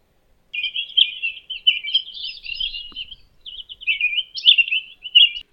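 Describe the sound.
Jungle babbler chirping: a long, high-pitched run of rapid, scratchy chirps and chatter that continues almost without pause. It is loud and clear, with no other sounds.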